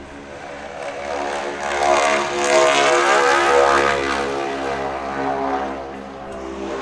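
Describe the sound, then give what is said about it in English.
A Ford Trimotor propeller airplane flying by, a loud steady droning engine and propeller hum with rich buzzing harmonics that swells and eases slightly over several seconds, with no voices. “Sound of freedom. There you go. Ford Trimotor flying by.”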